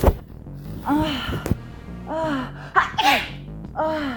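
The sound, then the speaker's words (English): A person sneezes, sharp and fairly loud, with breathy voiced sounds and quick intakes of breath around it and no talk. “I just sneezed. That was a sneeze.”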